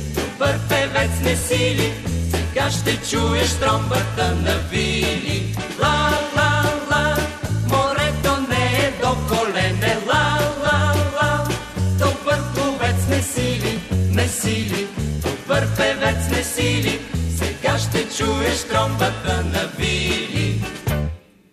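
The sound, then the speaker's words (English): Signature tune of a humor radio show, with upbeat instrumental music driven by a bouncing bass rhythm and bright melody. It plays loud and continuous throughout, then stops abruptly. “What you just heard is the signature tune of Vili's Huta.”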